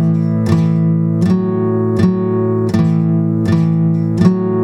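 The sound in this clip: An acoustic guitar strums a pattern that rocks back and forth between the second and fourth frets, six evenly spaced strums ringing out over a sustained, steady chord tone.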